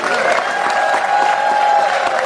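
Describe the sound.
Loud, sustained audience applause, a dense and steady wash of clapping that stays at the same level throughout.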